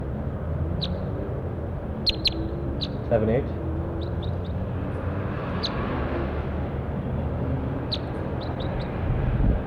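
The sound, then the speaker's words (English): Recorded bird call: many brief, high chirps scattered across a constant low rumble of background noise, with a man's voice speaking. “This is bird 4-8. Stop. Start recording 7-8.”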